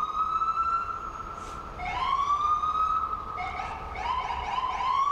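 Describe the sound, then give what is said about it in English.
An emergency vehicle siren wails with a strong, steady tone. The pitch rises and falls in repeated sweeps, with a brief gap before it climbs again, loud over faint background rumble. “he's just waiting for the siren to end. There's no immediate emergency. Just wait till he goes.”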